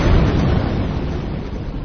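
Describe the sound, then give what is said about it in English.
A car bomb explodes less than a block away, heard as a loud, dense roar of low rumbling noise that fills the whole stretch with a muffled top end and no clear sharp crack. “This is the sound of a car bomb exploding less than a block away.”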